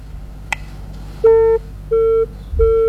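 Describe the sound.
A busy tone sounds after a call to a radio call-in line is disconnected. A short click comes first, then three steady mid-pitched beeps with even gaps.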